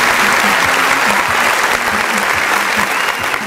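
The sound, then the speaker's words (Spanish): An audience applauds at a pageant, steady dense clapping that stays loud and even throughout with no break, with faint voices underneath. “aplauso! a que pases adelante a recibir este aplauso que te ganaste con todo tu esfuerzo.”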